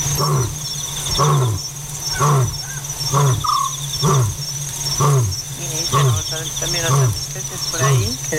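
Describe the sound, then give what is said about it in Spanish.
African scops owl calling at night: a steady series of short, purring calls about once a second, with continuous high insect chirring throughout. “Así que es un autillo. Ese true es el autillo africano.”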